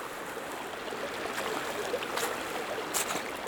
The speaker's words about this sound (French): Plein soleil au bord du petit ruisseau,